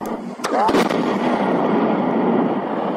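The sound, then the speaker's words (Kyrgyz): Blast from specialists detonating FAB-100 aviation bombs found in a village: sharp cracks about half a second in, then a loud, broad rumble that rolls on steadily to the end. “Бул жарылуу кайсыл бир аскердик машыгуудагы үндөр эмес. Кадамжай район аймагындагы Миңчинар айылында ФАБ 100 үлгүсүндөгү 20 авиабомба табылып, адистер зыянсыздандырып жаткан учурунан.”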